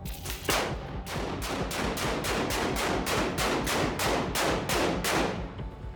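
Gunshots fired at a door in a gang-related shooting, a loud, rapid and evenly spaced series of many sharp, crackling blasts that continue without pause for the whole stretch, with no talk.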